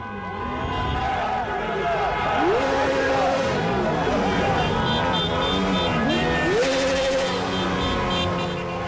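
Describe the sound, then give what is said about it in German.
Engines of a car convoy revving as cars drift and spin their rear tyres on a Berlin boulevard, with overlapping roars rising and falling continuously, mixed with background voices. “Also so kann sich das anhören, zum Beispiel am Berliner Kudamm, da ist alles dabei, also auch driften, Hinterreifen durchdrehen lassen, bis es raucht.”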